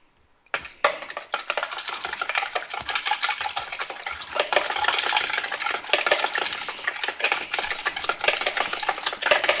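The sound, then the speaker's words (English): An egg is lightly beaten with a utensil while cooking: rapid, continuous clicking and scraping that runs steadily for about nine seconds after a short quiet start, with no talk. “Let me make sure my egg is slightly beaten.”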